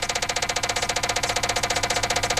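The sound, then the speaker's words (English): A prize wheel of baseball teams spinning, its pointer clicking in a fast, steady rattle of many evenly spaced ticks, loud and alone. “let's do what we've said we've been going to do, and that's spin the wheel of MLB teams. Here we go.”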